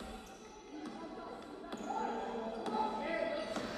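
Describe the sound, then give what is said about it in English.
A basketball is dribbled up the court during a game, giving a few sharp, evenly spaced bounces about a second apart over a steady background murmur of indistinct voices. “And we're dribbling up the court here.”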